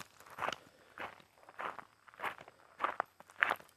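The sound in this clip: Footsteps of a person out walking: six soft, evenly spaced steps in a steady rhythm, faint and alone with no talk.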